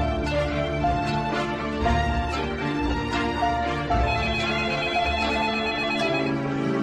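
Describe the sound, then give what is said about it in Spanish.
A telephone ringtone plays a continuous melodic tune at a steady level for about seven seconds, with no voices over it. “Una llamada telefónica me rescató de mis sombríos y atormentados pensamientos.”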